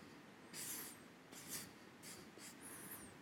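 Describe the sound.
Faint, scratchy strokes of drawing on paper, a few short bursts of rubbing with thin squeaky edges, separated by brief pauses and heard alone without talk.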